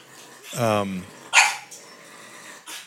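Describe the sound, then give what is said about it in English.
Puppies vocalizing indoors: a drawn-out whining yelp that slides down in pitch, followed by a sharp bark and a later short yip, with low growly rumbling between them. “We have puppies in here that are...”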